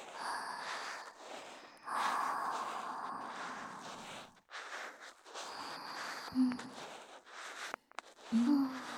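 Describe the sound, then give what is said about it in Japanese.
Slow, deep breathing: a few long, airy breaths follow one another with short gaps between them, fairly loud and steady. “そうそう、ゆっくり深呼吸だよ。”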